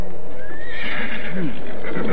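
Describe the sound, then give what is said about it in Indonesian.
A horse neighs loudly as riders mount up, its whinny rising and wavering over a dense, noisy background. “Naikkan mereka ke atas kuda dan berangkat! Tidak perlu. Ayo, naiklah ke atas kuda, Muka. Hup, hup!”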